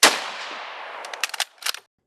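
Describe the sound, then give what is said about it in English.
A single loud rifle shot from Lee Harvey Oswald's Carcano rifle with a telescopic sight, fired at President Kennedy's limousine on November 22, 1963, cracks out and fades, followed by a few short metallic clinks. “Looking through his telescopic sight 190 feet away, Lee Harvey Oswald sees the president's limousine emerge from behind a tree. He squeezes the trigger of his Carcano rifle.”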